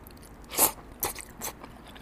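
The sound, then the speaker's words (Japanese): Kato Pork belly with a soft, fatty layer being eaten: three short, moist crunching bites about half a second apart, the first the loudest, against a quiet background. “加藤ポークのバラのこのね、油の部分がね、すごい感じだ。でもこれ、いただきます。”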